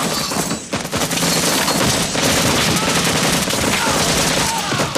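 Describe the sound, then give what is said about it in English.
Rapid automatic gunfire as a soldier shoots at the enemy beside a disused rail track, a loud, dense barrage of shots with heavy booms, dipping briefly near the start before pounding on continuously. “Erickson fires at the enemy while the others run across a disused rail track.”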